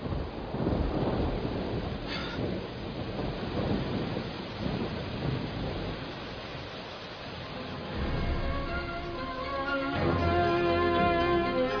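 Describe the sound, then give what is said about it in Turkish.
Rain in a radio drama scene, a dense steady hiss that grows louder toward the end, with a low rumble underneath. “Yağmur hızlandı. Bir an evvel otele gidelim.”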